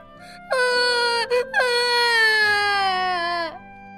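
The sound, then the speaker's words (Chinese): A child cries loudly in pain after kicking a table leg: a short wail breaks off, then a long, high, sustained wail slowly sinks in pitch before stopping abruptly. “难忍的疼痛让杰瑞大哭了起来。”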